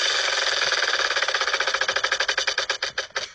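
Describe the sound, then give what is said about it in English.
A prize wheel spins with a fast, even ticking that gradually slows, the clicks spreading farther apart toward the end. “I'll spin the wheel.”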